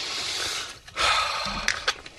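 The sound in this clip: Heavy breathing: a deep, loud sigh-like exhale followed by two short, sharp breaths, all breathy and close with no talk over it.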